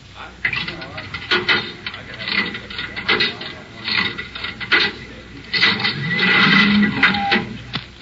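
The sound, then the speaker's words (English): A cigarette vending machine is operated, giving a run of mechanical clicks, ratcheting clunks and knocks in an irregular rhythm, with people talking over the machine. “Do I have some change for the cigarette machine?”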